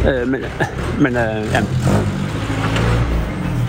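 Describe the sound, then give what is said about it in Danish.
A vintage car drives past with a low, broad engine rumble that swells and holds through the second half, while a voice talks over the opening moments. “Jamen, det er lige en veteranbil, der kører forbi her nu.”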